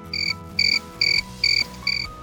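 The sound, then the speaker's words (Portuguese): A cricket chirping in five evenly spaced, high, piercing trills with a steady rhythm over a soft low background. “Você sabia que podemos estimar a temperatura ambiente ouvindo apenas as cricriladas de um grilo?”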